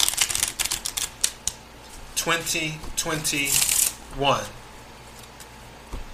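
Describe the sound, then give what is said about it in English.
Tarot cards shuffled and drawn for a reading, a quick run of light taps and flicks followed by a few longer riffling bursts of cards, then quieter handling toward the end. “Okay, let's take a few cards and see what we get.”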